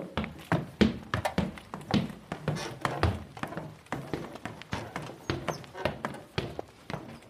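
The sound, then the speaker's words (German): Footsteps climbing a short flight of stairs in a lighthouse hotel suite: many steady, evenly spaced thuds and taps in a regular walking rhythm, moderately loud throughout. “Jetzt gehen wir ein paar Treppenstufen hoch.”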